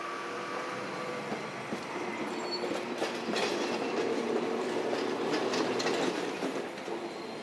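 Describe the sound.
Trains run along stacked rail lines near a main station, with a steady loud rumble and rhythmic clickety-clack of wheels on track throughout. No voices.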